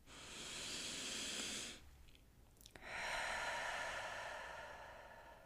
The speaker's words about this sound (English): let's just stop and take a really nice deep breath.